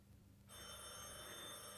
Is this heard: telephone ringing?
yes

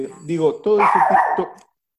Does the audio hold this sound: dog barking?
yes

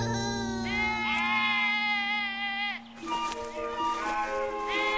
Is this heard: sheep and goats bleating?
yes

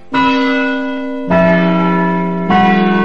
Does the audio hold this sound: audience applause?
no

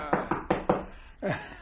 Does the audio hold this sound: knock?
yes

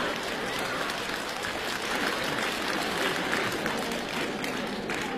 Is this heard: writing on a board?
no

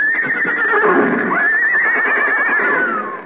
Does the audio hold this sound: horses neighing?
yes

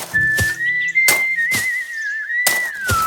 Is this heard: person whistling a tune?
yes

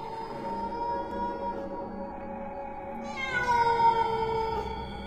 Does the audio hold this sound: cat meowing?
yes

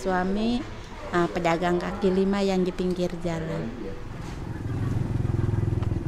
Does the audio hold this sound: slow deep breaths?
no

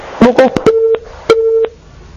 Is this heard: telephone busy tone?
yes

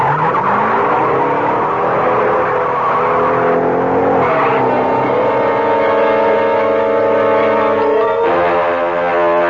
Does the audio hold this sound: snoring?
no

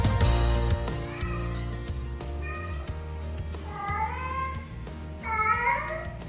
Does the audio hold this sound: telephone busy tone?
no

